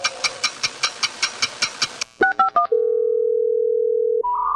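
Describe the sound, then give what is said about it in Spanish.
Telephone tones from a call that will not connect: a fast run of short, even beeps, then a few quick dialing tones and a long steady tone, ending with a brief higher tone. “No puede ser, en pleno siglo XXI siguen las llamadas sin entrar. ¡No entra la llamada!”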